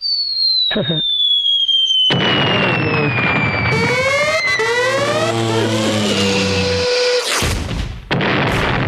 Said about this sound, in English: That's your money blowing to smithereens.